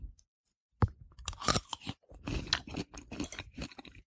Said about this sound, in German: Ich werde jetzt hier das bisschen schon mal probieren, ohne die Walnüsse.